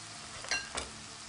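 Bolognese sauce cooking in a pan, a quiet, steady sizzle with a couple of brief louder bursts near the middle.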